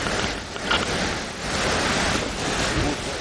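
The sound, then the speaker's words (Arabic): Rough sea waves wash around a boat in a radio drama scene, a broad rushing surf that swells and eases in slow surges, steady and fairly soft throughout. “البحر عالي، مش عاوز حاجة سايبة.”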